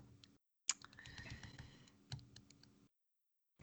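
Faint keys clattering on a computer keyboard as someone types, with many quick clicks in a loose, uneven rhythm and a short pause near the end.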